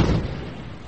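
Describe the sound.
A ship's gun fires a single warning round, heard as a deep, broad boom that is loud at first and then steadily fades away over about a second.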